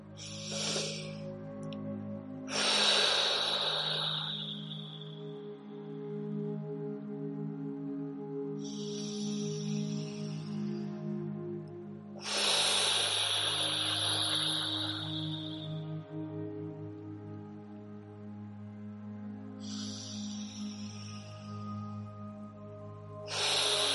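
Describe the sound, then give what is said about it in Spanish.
Deep breaths taken during a guided breathing exercise: slow, airy rushes of breath in and out that repeat several times, with quieter pauses between them and a steady low drone underneath. “Vamos a hacer tres últimas respiraciones para cerrar con este ciclo de conciencia.”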